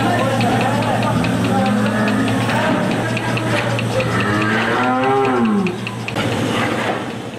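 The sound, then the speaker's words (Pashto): Cows lowing on a dairy farm in Kandahar's Dand district, where 140 cows are milked by machines: two long, deep moos over a steady mechanical hum. “د کندهار د ډنډ ولسوالۍ د غواګانو په دغه فارم کې 140 غواګانې سته”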